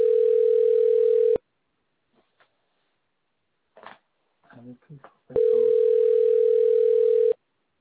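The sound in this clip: Telephone dial tone, a steady, loud, unbroken hum that holds for over a second, cuts off for a stretch of brief talk, then returns at the same pitch for about two seconds before stopping abruptly.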